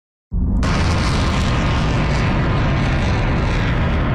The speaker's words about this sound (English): Video released by Iran's Islamic Revolutionary Guard allegedly shows missiles being launched towards U.S. bases in the Gulf region.